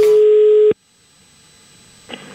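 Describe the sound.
A telephone call tone sounds while calling the police: one steady, loud tone holding for under a second, then cutting off into near silence, with a faint brief sound just before the end.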